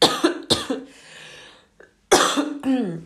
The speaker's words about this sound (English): I'm gonna cough, sorry